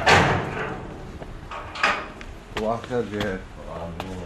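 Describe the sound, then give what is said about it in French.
A door being opened at the closed museum in Palmyra, heard as a few loud knocks and clunks, followed by speech. “Le musée est encore fermé, mais il l'ouvre rien que pour nous.”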